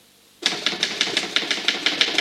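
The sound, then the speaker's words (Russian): Crisp typewriter keystrokes as a page of a manuscript is typed out, starting abruptly after a brief silence and continuing in a steady, evenly spaced run of many sharp clacks with no voices. “Допечатаем эту страницу, и на сегодня хватит, конечно, ладно?”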